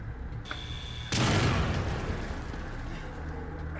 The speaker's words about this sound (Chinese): 哎，哎呀，差点炸死！